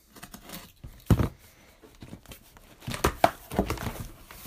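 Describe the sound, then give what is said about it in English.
A Swiss Army Tinker pocket knife cutting open a taped cardboard box, with irregular scraping and ripping bursts and a few sharper, louder strokes. “So let's get this thing open with our handy dandy Swiss Army Tinker model here. As I cut her on open.”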